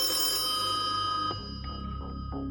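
A telephone rings for a live call-in, a tonal electronic ring that pulses several times over a steady hum.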